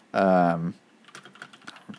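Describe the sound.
Light keyboard typing as a list is written up: a quick, uneven run of soft clicking keystrokes. It follows a short hummed vocal sound at the start and stays faint, with no clear speech.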